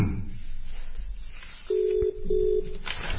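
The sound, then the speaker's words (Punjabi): Ringback tone of a telephone call being placed: a steady, low, pure tone sounds in two short bursts separated by a brief gap, over a constant background hiss. “ਅਸੀਂ ਰਜਿੰਦਰ ਸਿੰਘ ਜੀ ਹੁਣਾਂ ਨੂੰ phone ਕਰ ਦਿੱਤਾ”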